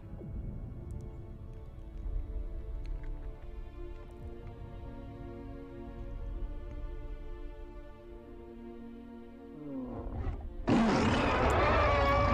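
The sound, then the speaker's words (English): A giant monkey's roar in a video game. Low, droning tones hold steady for most of the stretch, then a sudden, loud, rough roaring burst fills the final seconds. “Oh, monkey roar.”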